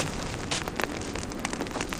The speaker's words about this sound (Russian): Неподалеку горит остов автомобиля.